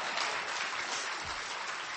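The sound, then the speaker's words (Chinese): Audience applause at a live traditional Chinese comedy show, breaking out after a sung folk-ballad number: dense, steady clapping from many hands, continuous and even in loudness from start to finish with no voices. “你看看我一唱完你们就拍鼓鼓掌”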